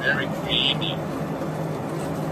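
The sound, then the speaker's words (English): Airplane cabin drone during a long flight to Osaka, Japan: a constant, even rumble and hiss that fills the whole clip, with people talking briefly over it. “So we're full for now. We still got about another 9 hours to go on this flight.”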